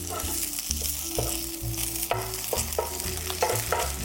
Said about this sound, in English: Sliding my spatula underneath my pancake here.